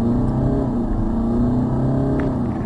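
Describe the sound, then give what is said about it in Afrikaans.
Steady engine drone from a BMW 220d automatic with a 2-litre turbo diesel, revving hard under load, a continuous, even growl with strong low harmonics that holds at one level from start to finish. “Dit is diesel toer hy nie hoog nie hier by so 4300 skakel hy oor na die volgende rad die 2 liter turbo diesel”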